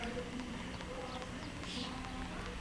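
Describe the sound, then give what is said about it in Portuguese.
Slow footsteps approach a toilet stall: faint, evenly spaced soft steps over a steady low hum. “De repente, ele escuta passos, lentos, em direção à cabine que ele se encontra.”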